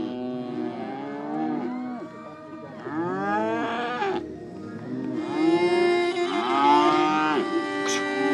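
Cattle and calves in a herd moo loudly and continuously, with many overlapping calls of varied pitch from deep lows to higher bleating tones, without pause and with no voices.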